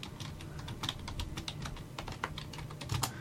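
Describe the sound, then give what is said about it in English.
Steady typing on a computer keyboard, many quick, light keystrokes in an uneven rapid patter, clicking on without pause. “I got to type and talk at the same time.”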